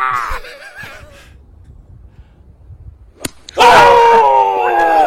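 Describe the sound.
A golf ball hit with a driver strikes a man's groin: one sharp crack, followed at once by loud, sustained yelling. Voices are heard before the impact.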